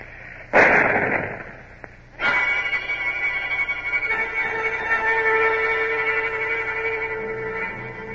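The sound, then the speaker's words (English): A signal gun fires aboard a ship of the line during a naval blockade. A sharp, loud blast is followed by a second heavy report that trails off into a long, low rumble. “A chalk ring on the gangway, and McCool standing silently on it, pale but with head high. Signal gun ready. Fire!”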